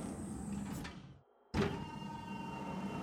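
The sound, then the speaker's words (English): A mechanical hatch opens with a faint motorized whir that fades almost to silence. A sudden sharp burst of sound follows, then a steady airy hum with a low tonal drone that carries to the end. “Open it! Wait, confirm Atmos! It's green, bloody green, just like we left it! Come on! Opening hatch!”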